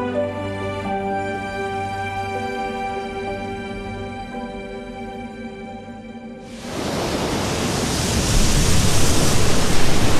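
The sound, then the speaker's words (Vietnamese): Sea waves on the beach at Westerland on the North Frisian island of Sylt: a broad, hissing surf wash sweeps in after a long sustained tonal drone and grows louder toward the end. “Những con sóng đủ lớn tại bãi biển ở Westerland khiến cho nơi này xứng đáng để khách du lịch lui tới.”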